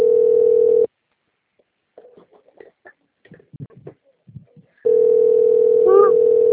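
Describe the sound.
Ringing tone of an outgoing phone call: a steady, even electronic tone sounds for nearly a second, stops for a long quiet gap holding only faint scattered clicks and rustles, then returns loud and unchanged.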